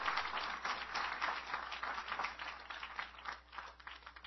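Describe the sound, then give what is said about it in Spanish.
Church audience applauding during a sermon: a steady, dense patter of many hands clapping, fairly faint and even throughout, with no talk over it. “¿Cuántos dan un aplauso al Señor?”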